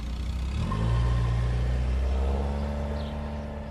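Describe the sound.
Engine rumble of a Toyota Prado car driving: a steady low rumble that swells slightly early on and then holds, with no talk over it.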